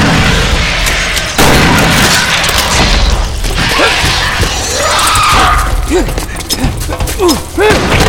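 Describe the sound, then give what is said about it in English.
Grenade explosions in a cavern battle, with grenades thrown two at a time; heavy booms and thuds hit amid dense, loud combat noise, with voices shouting through the chaos. “Detroit Green was tossing two grenades at a time, heaving them at the last possible second.”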